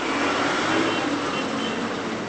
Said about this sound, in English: Trucks jammed with extended families and piled high with damaged household goods pulled from the rubble of collapsed homes have been heading out on the main road here for several days now.